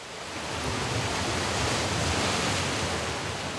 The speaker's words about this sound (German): Wir schauen auf die Wellen, die himmelhoch jauchzen und dann wie schwer betrübt in die Tiefe tauchen.